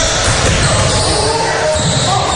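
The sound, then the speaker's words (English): A basketball bounced on the court during a game, dribbled steadily under a commentator's continuous talk and crowd noise. “Bounces the ball.”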